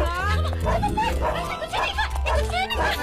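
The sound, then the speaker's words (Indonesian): Dog barking, repeated sharp barks and yips, with people talking excitedly over and between them. “ada anjing pak. Aku lah anjing pak, lumayan sih. Ya Allah, ya Allah, ya Allah, anjing ini pak.”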